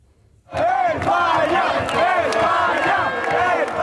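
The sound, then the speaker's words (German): A crowd in Madrid celebrating a football World Cup win erupts suddenly after a moment of quiet into loud, sustained chanting and shouting that carries on at full strength to the end. “So wie nach dem Sieg gegen Belgien soll es auch nach dem Halbfinale gegen Frankreich klingen.”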